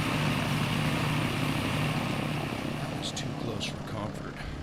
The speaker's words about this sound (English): Hang on, everyone. Here comes the roughest takeoff of your lives.